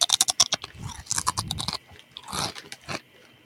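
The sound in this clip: Crunchy chewing of chips from a mixed roulette-style bag of hot red and cool cheddar flavours that taste stale: a quick run of sharp crisp bites at first, then slower, softer munching with scattered crunches.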